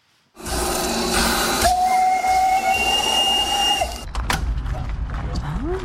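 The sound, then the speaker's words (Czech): Steam whistle and hissing steam from a historic steam locomotive at the seventh annual steam locomotive festival in Benešov: a loud, sustained hiss carries steady whistle tones for several seconds, then gives way to rumbling mechanical noise. “Vzácné historické lokomotivy z Česka i ze zahraničí dorazily na 7. ročník festivalu parních lokomotiv v Benešově.”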